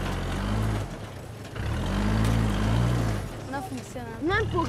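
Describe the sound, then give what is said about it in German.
A car engine drones and surges as the vehicle sits stuck in soft sand, its tyre spinning without grip. Two long, low revving swells are followed by a voice talking near the end. “Der Sand ist so weich, dass der Reifen keinen Halt darauf findet und nicht weiterfahren kann.”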